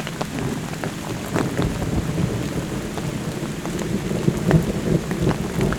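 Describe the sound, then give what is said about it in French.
Thunder moving away in the Pyrenees rumbles low beneath steady, hissing rain, with scattered drops pattering on surfaces throughout. “et le tonnerre qui s'éloigne.”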